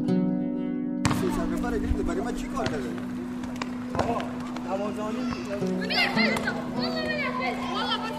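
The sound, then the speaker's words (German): Children shout, call out and play in the yard of an empty primary school in Düsseldorf that houses refugees, early in the evening after dark. Many high voices overlap in lively bursts over a steady low hum. “Es ist früh am Abend und die Kinder spielen im Dunkeln auf dem Hof.”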